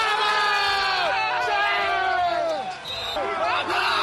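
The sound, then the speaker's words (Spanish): The FC Barcelona squad shouts and cheers together after a comeback win in an empty Camp Nou. Loud, overlapping male voices whoop and yell throughout, with a brief dip in volume before the cheering surges again. “Y así sonó la alegría de la plantilla del Barça.”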